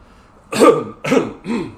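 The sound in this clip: Throat clearing from a tickle in the throat: three short, harsh, rasping bursts in quick succession, fairly loud against a quiet background, with the last slightly weaker.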